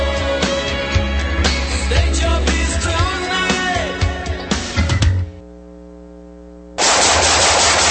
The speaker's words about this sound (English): Nice shooting.